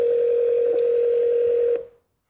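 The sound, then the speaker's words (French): Telephone line tone sounds as a call is placed: a single steady, unbroken pitch holds for nearly two seconds, then stops abruptly. “Et donc il piège la personne comme ça, il l'appelle”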